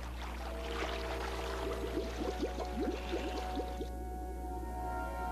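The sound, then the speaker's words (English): River water rushes and gurgles into an airlock around two divers in scuba gear. A steady wash with bubbling runs over a low, constant hum, and the hiss cuts off abruptly near the end. “Wearing scuba gear, Carter and Yoshizumi stand in the airlock as river water rushes up around them.”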